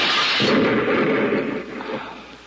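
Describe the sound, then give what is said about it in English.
A hand grenade explodes in a single deep, rumbling blast that swells quickly and then slowly decays into a fading roar, with no voices heard. “Hey, it's a firing pin of a grenade. Give me that. Look out!”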